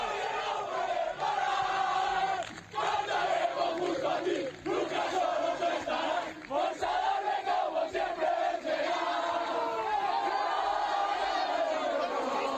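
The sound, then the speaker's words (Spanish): A football team celebrates a 2-1 comeback win with loud, sustained group cheering and chanting. Many voices shout together almost without pause, with only a brief dip in the middle. “Mira, este es el sonido de la celebración del equipo después de ganar al Pontevedra y remontar el pasado domingo”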